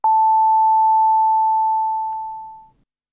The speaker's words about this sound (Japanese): 寄り添う力、東北電力が8時をお知らせします。